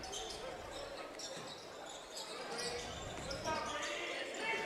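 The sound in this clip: A basketball is dribbled during a non-conference high school game between Baraboo and Lodi. Repeated muffled bounces sound under steady crowd noise while a voice talks throughout.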